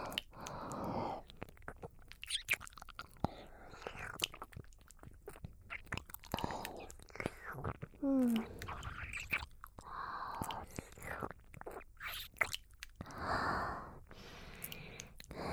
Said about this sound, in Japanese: このお耳をレロレロって舐め回して、汗を拭き取ってあげるからね。